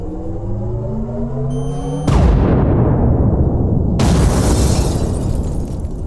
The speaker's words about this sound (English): Tactical laser selected. Close your eyes if you need to. Locked and firing.